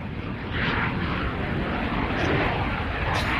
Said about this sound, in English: It was some kind of bomber. B-1 bomber. A B-1 bomber flying overhead for the home opener flyover.